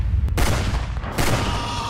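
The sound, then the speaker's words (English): Gunfire from a movie trailer: a few loud, sharp gunshot bursts that crack and then ring out over a dense, rumbling action soundtrack. “He just shot that guy in the dick.”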